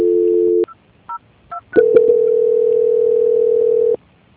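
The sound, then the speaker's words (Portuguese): Telephone call transfer tones: a steady low dual tone, then a few short separate beeps, then a long, loud, steady single tone lasting about two seconds before it cuts off. “A ligação ficará muda. Transferência.”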